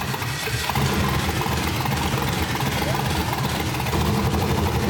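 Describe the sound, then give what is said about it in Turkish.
A car engine runs just after its camshaft position sensor was replaced, giving a loud, continuous low rumble with an even, rough idle throughout. “Eksantrik mili konum sensörünün yerini değiştirdim ve motorun kalanını bir araya getirdim. Sıvılar tamam, çalıştır. Kontağı çevir.”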